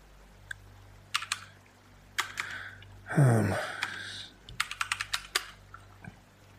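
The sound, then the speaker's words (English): Typing on a computer keyboard: fairly quiet, irregular bursts of crisp key clicks, with a brief louder rushing sound partway through, and no talk. “Let me try like type that in.”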